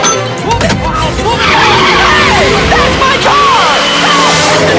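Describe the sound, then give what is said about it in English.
Tyres squeal and skid as a sports car reverses fast beneath a lorry blocking the road. The loud, wavering screech rises and falls in repeated swoops over a continuous roar. “Keong does a fast reverse under a lorry blocking the road”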